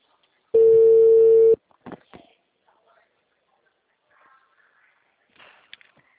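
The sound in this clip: Telephone ringback tone with nobody answering: one steady, buzzing tone lasting about a second, followed by a few faint clicks and near silence.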